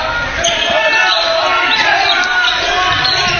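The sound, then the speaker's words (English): A basketball is dribbled on the court during a game, several quick thumping bounces under a commentator's continuous talk and faint crowd noise. “Dribble, looking inside.”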